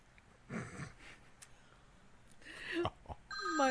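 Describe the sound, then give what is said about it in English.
A mobile phone ringtone goes off as an incoming call arrives: a bright, tonal electronic melody with stacked harmonic lines near the end, preceded by a few scattered rustling bursts. “My phone. It's the police. I can't answer that. I'm sorry. This is in the middle of our podcast. I'm sorry that went off.”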